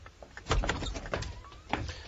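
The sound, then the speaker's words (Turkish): A door being opened at home: soft clicks and knocks of the handle and latch, a heavier thump near the start and another near the end, and a faint squeak in between. “Şimdi gidip kapıyı açabilirim.”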